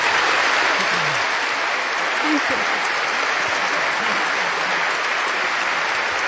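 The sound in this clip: Steady audience applause welcomes a speaker at an evening book event. Dense, even clapping holds at a constant level for about six seconds without pause.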